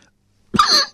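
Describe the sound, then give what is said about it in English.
A man coughs once, a short, rough burst that sounds half-stifled, as if he is trying to hold back his coughing, after a moment of near silence. “he says as he's trying to contain his coughing”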